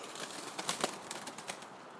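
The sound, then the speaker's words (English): Startled birds flap their wings among trees and gravestones, a faint burst of fluttering beats over a soft background hiss. “birds that were slightly surprised that I walked up to them”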